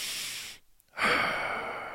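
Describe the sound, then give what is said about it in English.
Deliberate breathing for relaxation with an extended, active exhale: an airy rush of breath, a short silent pause, then a longer, louder, forceful breath that holds steady until the end. “So it can be inhale, exhale.”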